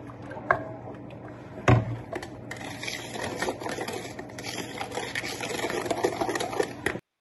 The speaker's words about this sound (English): Whisk it all together.